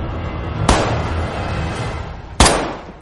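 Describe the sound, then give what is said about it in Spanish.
Two loud, sharp gunshots about two seconds apart as Lin Guijin fires at drawings of MacArthur's head and other soldiers. Each crack is followed by a decaying tail over a low rumbling background. “Lin Guijin dispara a distancia a dibujos de la cabeza de Mac Arthur y otros soldados.”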